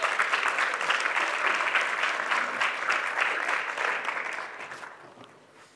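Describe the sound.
An audience applauds as a guest walks onto the stage: dense, steady clapping that holds for several seconds and then fades away toward the end.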